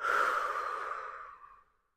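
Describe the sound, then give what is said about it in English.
A deep, breathy exhale during a guided breathing exercise, loud at first and then tapering smoothly into silence over about two seconds. “One more deep breath in through the nose and exhale, let it go, release whatever you need to release for today.”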